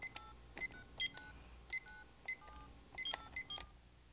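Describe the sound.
A number is keyed on a cordless telephone set on a table, giving a quick, irregular series of short dual-tone keypad beeps, some in close pairs, clear against a quiet background.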